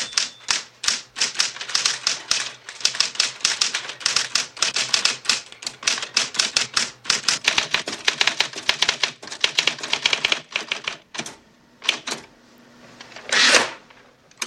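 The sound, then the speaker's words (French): Someone types on a typewriter at a table, striking many rapid, crisp keys in uneven bursts. The keystrokes thin out toward the end, with a few scattered strikes and a brief rougher mechanical sound. “Vous êtes à table, avec devant vous une machine à écrire.”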